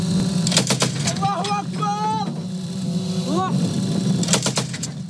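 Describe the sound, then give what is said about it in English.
Sharp volleys of gunfire from pro-Ankara Syrian rebel fighters holding positions in the Talmalid area north of Aleppo. Rapid cracking bursts come at the start and near the end, with voices and whistling tones between them. “That's the sound of guns from pro-Ankara Syrian rebel fighters holding positions Saturday in the Talmalid area north of Aleppo.”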